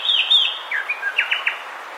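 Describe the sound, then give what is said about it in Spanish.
Chirping calls of a sepia-brown wren, a dark brown songbird about 17 cm long, recorded in Caldas: a loud run of bright, high notes and quick descending slurs, with no other sounds. “Escuchamos al cucarachero sepia, que mide unos 17 centímetros y tiene el plumaje marrón oscuro con garganta blancuzca”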